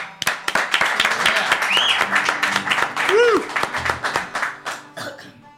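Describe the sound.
Audience applause welcoming a live band: dense, continuous clapping that stays strong for several seconds before thinning out at the end.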